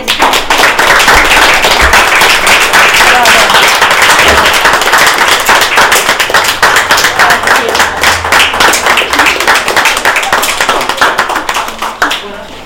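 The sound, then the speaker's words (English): Audience applause as a closing round of thanks: dense, loud, continuous clapping that fills the whole stretch and tapers slightly at the very end. “So maybe a last applause of thank you.”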